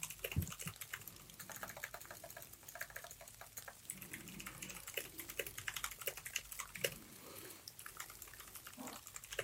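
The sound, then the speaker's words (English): Rapid typing on a computer keyboard: a dense, continuous patter of many light clicks and taps with uneven rhythm, going on steadily with no talk over it. “So much typity type.”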